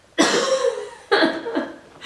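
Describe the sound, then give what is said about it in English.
A coughing fit from someone who is sick: a few harsh, loud bursts of coughing separated by short breaths, each burst sharp at the start and then fading. “I told you I was sick. Sometimes I have like these coughing fits where I just like cough.”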